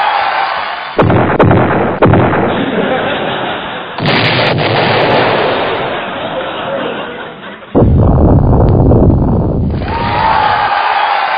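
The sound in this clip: Explosion sound effects performed as a comedy mascot act: loud, crackling, gunfire-like blasts that fire off in several sharp bursts, each followed by sustained rumbling noise.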